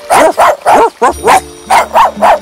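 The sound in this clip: A small dog barks in a quick run of sharp, high, yappy barks with short gaps between them. No voices are heard alongside.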